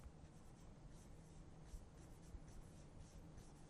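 Handwriting an English sentence, heard as faint, continuous scratchy strokes of a writing tool on a surface, steady and uninterrupted with no voices.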